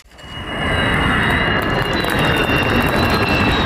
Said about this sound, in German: Februar 24, Jungfernflug des Tankkappenjägers Khan, made in Türkei. Nur das Triebwerk muss aus den USA zugekauft werden, noch.